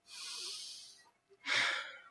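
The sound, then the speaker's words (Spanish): A deep breath taken by one person: two long, airy breaths split by a short pause, the second louder and rougher than the first. “Respiro.”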